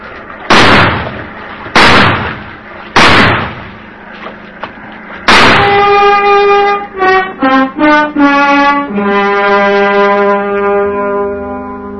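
Gunshots from a gun, three loud sharp cracks about a second apart, then a fourth blast that gives way to sustained, wavering musical tones.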